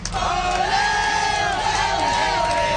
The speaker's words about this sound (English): That is the sound of fans welcoming the Montreal Victoire as they got off the bus hoisting the Walter Cup.